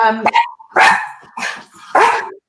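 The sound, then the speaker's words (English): A dog barks a few times in quick succession, each bark loud, sharp and short with brief pauses between, heard alone. “That's my dog.”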